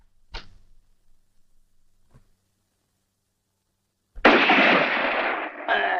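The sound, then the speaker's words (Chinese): A gunshot: one sharp, sudden crack near the start, followed by a faint knock and a long silence, then a loud, sustained burst of rushing noise. “这一枪是你打的？”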